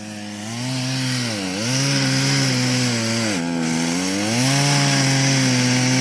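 Chainsaw cutting a notch into a tree, its loud, buzzing engine whine steady apart from two brief dips in pitch as the chain bites into the wood, each quickly recovering.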